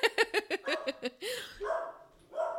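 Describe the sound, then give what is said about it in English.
A dog barks at someone at the door: a quick run of about seven sharp barks, then several longer, drawn-out yelping barks, loud and alone with no talk. “So there's our dog. There's someone at the door.”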